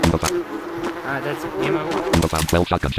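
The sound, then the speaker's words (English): Fly-like buzzing marks loot in a zombie video game, a steady droning hum running beneath a game voice speaking over it. “Okay, that fly sound you're hearing is loot. And that's basically an item.”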